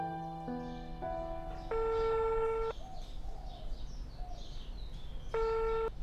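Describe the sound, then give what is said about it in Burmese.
A phone call being dialed: a run of electronic beeps stepping through different pitches in quick succession, then a longer held tone. After a quieter gap with faint chirps, the same held tone returns near the end. “ဖြူနှင်းကိုလည်းသိစေချင်လို့ကျွန်တော်ဖုန်းခေါ်လိုက်တယ်”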